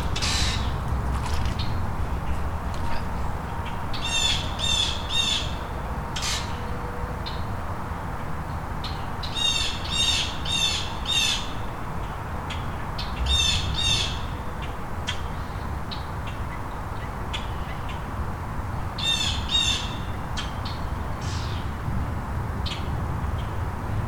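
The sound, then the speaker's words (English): Grackles and blue jays squawk in harsh, raspy bursts of rapid repeated calls, several clusters spread through the stretch over a steady low background hum. “Or it could be the grackles and blue jays not getting along.”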